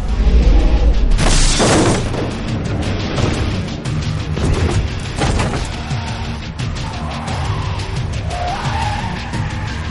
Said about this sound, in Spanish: conduce la furgoneta a gran velocidad hacia las dos adolescentes. ¡Agarraos! Las atropella.